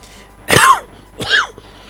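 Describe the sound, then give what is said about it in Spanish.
An adult with a slight cough coughs twice, alone. The first cough is loud and harsh, followed after a short pause by a second, somewhat softer one. “Disculpen, pero ando con un poquito de tos.”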